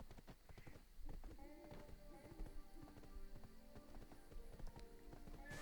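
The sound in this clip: Horse hooves clip-clop as a character rides in a video game, a faint, steady run of hoofbeats beneath someone talking.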